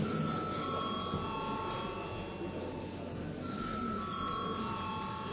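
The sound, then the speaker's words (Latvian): An electric bell rings in a parliament chamber before a vote. The steady, sustained ring pauses briefly partway through and then resumes, over a low murmur of room noise. “lūdzu zvanu”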